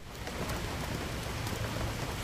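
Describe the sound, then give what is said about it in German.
Steady rain, a dense and even hiss of falling drops with no breaks, moderately loud and without voices. “Es regnet.”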